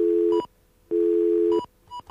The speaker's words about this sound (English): you notice the dial tone doesn't pulse anymore? That's weird.